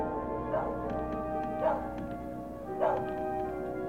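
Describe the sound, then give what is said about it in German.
A dog barks three separate times outside a lonely house at the start of a radio crime drama, each short bark standing out from a steady low hum, with quiet gaps between barks. “Irgendwo bellt ein Hund.”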